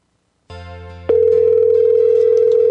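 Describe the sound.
A telephone tone on a call that goes unanswered: a steady electronic hum starts, then jumps into a louder, continuous pure tone that holds without a break to the end. No voices are heard.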